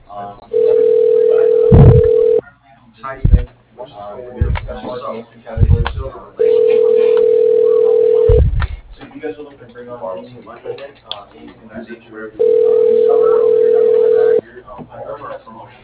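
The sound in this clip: A telephone call connects and rings through a phone line, with three long, steady ringback tones separated by stretches of talk and a few short clicks.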